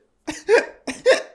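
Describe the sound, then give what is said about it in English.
A person has the hiccups: four short, sharp, voiced gulps in two quick pairs, loud and alone against silence. “got the hiccups”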